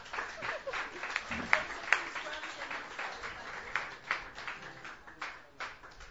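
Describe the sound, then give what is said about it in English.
An audience applauds to welcome a performer to the stage at a Sunday night open mic at Hulbert's. Many hands clap in a fairly faint, continuous patter, with a few sharper individual claps standing out. “Please put your hands together. Welcome Shauna to the stage.”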